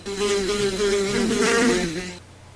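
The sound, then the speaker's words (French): A swarm of flies buzzes in a room thick with them on the ceiling, windows and glasses: a dense, wavering drone of many wings that holds loud and steady for about two seconds, then drops away. “des mouches! Jamais je n'en avais tant vu. Sur le plafond, collé aux vitres, dans les verres, par grappes. Quand j'ouvris la porte, ce fut un bourdonnement, un frémissement d'ailes, comme si j'entrais dans une ruche.”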